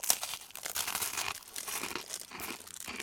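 Dense, dry crunching and crackling as someone bites into and chews crispy fried food with a crunchy exterior and a mild soy sauce flavour. The crunches run continuously and fairly loud, with no talk.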